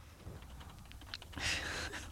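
Typing on a computer keyboard, heard as a few faint, scattered key clicks under a quiet hiss, followed by a slightly louder rustling burst toward the end.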